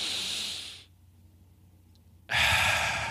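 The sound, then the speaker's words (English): Breath sounds during a rhythmic breathing exercise, with a loud, airy breath that trails off, a near-silent pause, and then another strong, hissing breath rising sharply at the end. “So breathing at a specific pace and controlling that pace. So for example, you would inhale in,”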